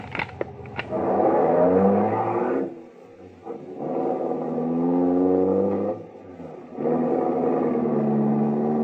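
Taxi cab engine droning as it drives, a loud steady roar that dips briefly twice and then swells again, with a couple of sharp clicks at the start.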